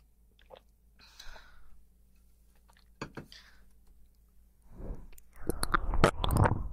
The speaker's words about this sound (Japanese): ちょっと水飲ませてね。